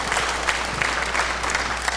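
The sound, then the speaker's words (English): Dense applause from a church audience welcoming the online worshippers, steady, even clapping that fills the whole moment without pause. “And put your hands together and welcome in our global online congregation.”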